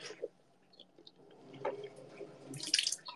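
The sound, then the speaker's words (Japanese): Someone lightly rinsing their mouth with water after brushing their teeth: faint, scattered liquid swishes and small splashes that build into a brighter burst near the end. “みんなさ、口の中気持ち悪いとかなるじゃん。そういう人はね、軽くゆすぐんだって。ゆすいでも大丈夫みたいな。”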